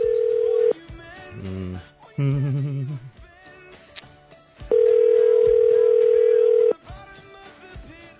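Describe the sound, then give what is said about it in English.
Telephone dial tone and dialing of a number, placing a call to a contest winner's mother at her workplace: a steady dial tone, then a series of dual-pitched keypad beeps, then a second long steady tone, all fairly loud. “We tried to call the winner who's going to be going backstage, but instead we got a voicemail. So we got a different number. We're calling his mom at work.”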